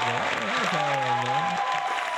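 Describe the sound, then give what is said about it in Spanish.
Applause from an audience celebrating a singer's graduation forms a steady, dense wash of clapping that runs throughout, with a wavering tonal voice-like sound layered over it. “aplauso para él.”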